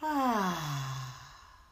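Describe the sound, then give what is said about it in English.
A deep exhale with an audible voiced sigh during a morning breathing exercise, loud at first, then sliding down in pitch and trailing off into quiet. “Let's breathe in and out.”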